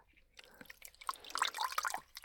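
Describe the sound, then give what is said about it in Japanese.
Water splashes and drips as foam is rinsed off a face. Irregular wet splashes build through the middle of about two seconds, then fade away. “泡を顔に塗り広げて、はい、じゃあ洗うよ。”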